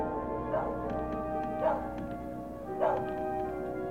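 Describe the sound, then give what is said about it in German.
A dog barking near a lonely house in a radio crime drama scene, three short barks spaced about a second apart over a steady, droning background. “Irgendwo bellt ein Hund.”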